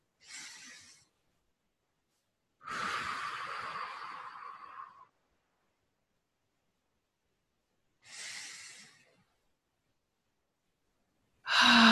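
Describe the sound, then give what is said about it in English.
Slow deep breaths, drawn in through the nose and let out through the mouth: three long, airy breaths separated by silence, then the start of a fourth, all alone with no talk. “start with a couple nice deep breaths in through the nose and out through the mouth, please”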